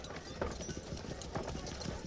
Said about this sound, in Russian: Получасом позже телега в сопровождении четырех всадников покидает замок.